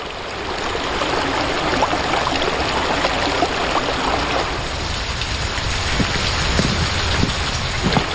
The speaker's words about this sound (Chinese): 随着闸门开启，水流沿着青石板下的暗渠奔涌。